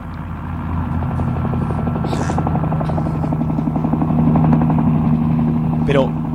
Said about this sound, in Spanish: ¡Parece un helicóptero! ¿Habéis oído? ¡Hay un helicóptero aterrizando en la parte de atrás!